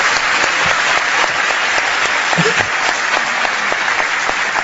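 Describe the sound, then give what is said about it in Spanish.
Audience applause fills a lecture hall: dense, steady clapping from a large crowd, loud and sustained throughout, with no voices over it. “¿Qué le dan ustedes ese aplauso? ¿A los 88 años o a mí hoy?”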